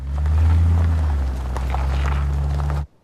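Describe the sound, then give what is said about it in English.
A car reversing, its engine a steady low drone with a humming tone that holds at an even level before cutting off abruptly near the end. “He pauses. They share a look and he smiles, then opens the driver's door and gets in. Adrian gets in the passenger side. Paul reverses.”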